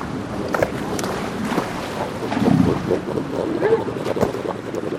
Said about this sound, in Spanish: Noche fría, mucho viento.